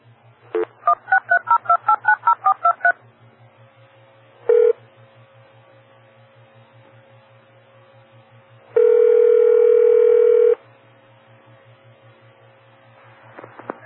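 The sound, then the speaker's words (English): Telephone auto-dial DTMF tones: a quick, even run of many keypad beeps, then a single short tone and a long steady tone lasting about two seconds, all over a faint low hum. “We'll try Newsline one more time. Auto dial.”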